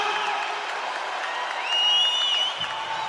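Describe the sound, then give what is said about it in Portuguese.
An audience at a gospel event applauds in a dense, continuous wash of clapping, with cheering voices rising above it. “Uma salva de palmas bem mais forte para Jesus!”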